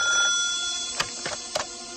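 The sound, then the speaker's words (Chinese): A telephone rings in a room of a numbered building, with steady electronic bell tones and tonal harmonics, plus a few short clicks or knocks near the end; no voices are heard. “八号楼里，黄一彪房间的电话突然响了。”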